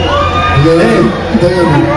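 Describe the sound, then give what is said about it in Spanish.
A crowd shouting and cheering, urging a kiss after a bouquet of roses is handed over. Loud overlapping voices whoop and call out in a dense, continuous roar with no pause. “Ahí la gente le empezó a gritar, beso, beso.”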